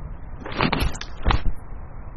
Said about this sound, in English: sounds like the ocean almost, the car.